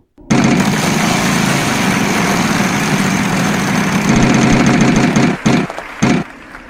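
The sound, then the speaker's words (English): A prize wheel being spun, giving a continuous loud rattling whir that holds steady for several seconds, then breaks into a few last choppy bursts and stops. “And now it's time to spin the wheel.”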